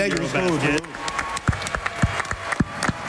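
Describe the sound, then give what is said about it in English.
Audience applause honoring players who won a bronze medal for their country. A broad wash of clapping with a few heavier thumps follows a short stretch of talk at the start. “get ready for a round of applause here”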